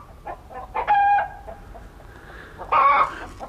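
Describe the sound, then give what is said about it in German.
Small chickens clucking and squawking, with a few short clucks and two longer, drawn-out calls standing out clearly over a quiet background. “Du, deine kleinen Hühner rücken ab.”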